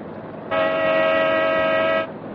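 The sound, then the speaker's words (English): A car horn blares in one long, steady blast of about a second and a half over a continuous low rumble, sounded by a pursuing car during a high-speed chase on an open road. “Give him the horn again.”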